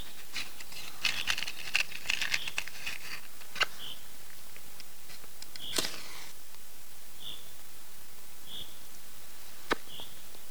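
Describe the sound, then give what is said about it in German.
Matches struck to light them: scratchy, rasping strikes, then a sharper scrape that fizzes into a brief flare, followed by a few small, quiet clicks. “Ach bitte ja, ich reiß so gern Streichhölzer an.”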